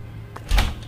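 A door is opened with two quick clunks, a light one and then a louder one with a low thump.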